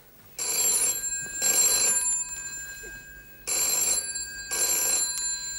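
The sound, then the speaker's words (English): A telephone bell rings in a repeated double pattern, four loud, bright bursts grouped into two pairs with short pauses between, alone with no talking. “Excuse me, that's the phone.”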